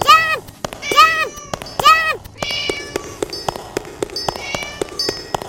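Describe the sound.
Three synthetic cat meows from a video game ring out in quick succession, followed by bright chiming pings and sharp clicks as coins are collected.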